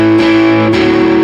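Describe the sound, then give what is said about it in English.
Electric guitar power chords played without palm muting, ringing out fully with heavy distortion. A few sustained chords change without any pause between them, loud and thick with overtones. “Because otherwise, if we didn't use the palm muting, it would sound like this.”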